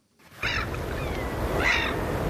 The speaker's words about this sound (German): Möwen und Wellen, guter Stoff